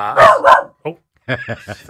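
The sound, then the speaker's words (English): A pet dog barks at passing traffic in a string of short, sharp barks: two loud barks, a brief pause, a quieter one, then a quicker run of lighter yips. No voices are heard. “That's my dog who decided to come with me today and is deciding to bark at the traffic.”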